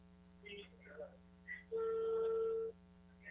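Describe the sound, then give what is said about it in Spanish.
A telephone call to a prize winner rings out as one long, steady ringback tone lasting about a second over a constant electrical hum, with faint, muffled sounds before it. “Vamos a llamar en estos momentos. Vamos a ver quién entra la llamada.”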